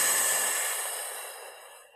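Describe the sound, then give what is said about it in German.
An exhale during a relaxation breathing exercise: a steady, airy breath sound that fades gradually over about two seconds, with no talking. “Das Herz wird weit, einatmen. Und wieder ausatmen.”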